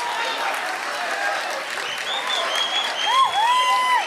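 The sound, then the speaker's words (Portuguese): Audience applause at a concert, a dense and steady wash of many hands clapping that holds throughout and grows slightly louder toward the end. “Muito obrigado mesmo. Obrigado. A gente aplaude vocês.”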